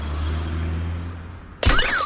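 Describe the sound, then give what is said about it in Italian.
Car glass shatters when an iPhone 14 Pro Max dropped from a window strikes a car: a single sudden, loud crash breaks in near the end, following a steady low hum. “Vediamo se l'iPhone 14 Pro Max cade dalla finestra veloce come il Dodge. Vai.”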